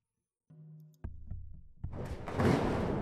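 A heavy iron door on a hospital rooftop slams shut with a deep, sharp thud. A few further clunks follow, then a swelling wash of noise.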